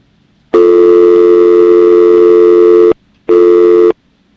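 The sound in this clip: A telephone busy tone sounds after a call is cut off: one long, loud, steady tone, then a short gap and a briefer repeat of the same tone, heard alone.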